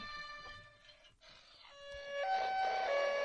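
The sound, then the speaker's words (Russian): A police motorcycle siren gives a loud, steady electronic tone that shifts pitch in a few abrupt steps, sounding alone with no voices. “Милиция. Полиция. И это мотоцикл полицейский.”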